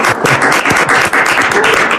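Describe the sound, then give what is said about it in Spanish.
Applause for Alicante, a short, loud burst of dense clapping that carries on at a fairly even level for about two seconds, with no voices over it. “Un aplauso para Alicante.”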